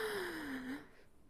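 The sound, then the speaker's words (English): A single voiced inhale drawn in during a guided breathing exercise, its steady tone sliding slowly downward before trailing off into quiet breath noise. “And instead, we're gonna breathe in”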